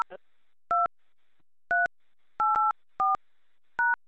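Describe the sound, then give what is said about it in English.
Telephone keypad dialing tones entering a conference code: several short, clear electronic beeps of equal loudness at uneven intervals, with silence between them and no talk. “Please dial your conference.”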